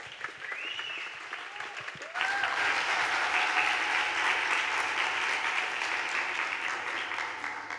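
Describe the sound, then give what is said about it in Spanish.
Loud audience applause for a performer at a live event in Buenos Aires. A voice is heard briefly first, then the clapping swells suddenly at about two seconds and holds a dense, steady level to the end. “Un fuerte aplauso, por favor, a Madeleine Gamondés.”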